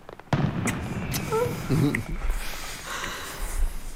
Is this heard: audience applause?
no